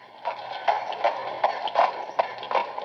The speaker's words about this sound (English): Remember the sound of the milkman leaving the milk and good fresh cream?